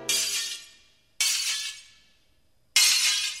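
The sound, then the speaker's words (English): Window glass smashing three separate times, each a loud sudden crash followed by bright tinkling shards ringing out and decaying before the next break. “For the eighth fright of Halloween, a vandal gave to me eight window smashing,”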